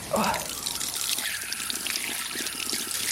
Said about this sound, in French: Ah là, il y a un point d'eau.